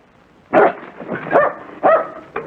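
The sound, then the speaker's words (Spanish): A dog barks in several sharp, loud bursts spaced unevenly apart, with a softer final yap, standing alone over a faint background. “No ladres, no ladres. Eso es. No ladres, nos van a descubrir”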